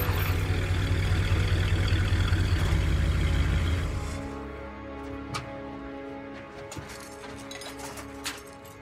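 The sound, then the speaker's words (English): A car drives through rural countryside and pulls into a parking lot. A loud, steady low engine rumble runs for about half the time and then falls away to a quieter hum with a few faint clicks. “Ming drives through rural countryside, eventually pulling into a parking lot.”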